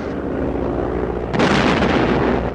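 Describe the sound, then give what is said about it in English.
Anti-aircraft gunfire and shells bursting around a low-flying plane as it sweeps in over a bridge: a steady engine drone, then a sudden loud burst partway through that keeps the noise louder and harsher to the end. “They start firing at the plane, many of the shots only missing it by a narrow margin.”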